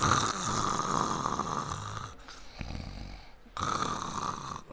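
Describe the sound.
Loud, rasping snoring comes as three long drawn-out snores in a row, each a rough noisy breath with a short quiet gap between them.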